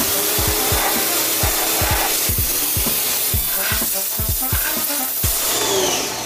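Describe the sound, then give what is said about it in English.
Pressure washer spraying water while a light is being cleaned, a loud continuous hiss with a steady, rhythmic low thumping beneath it. “The pressure washer is doing wonders.”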